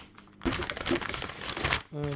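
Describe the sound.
Rustling and crinkling of a local newspaper as its pages are handled, a dense papery crackle lasting just over a second before a voice begins.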